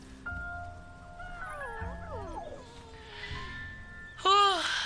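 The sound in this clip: Puppies whimpering and yipping: several thin, high whines that glide up and down and overlap one another, ending in a sudden louder yelp.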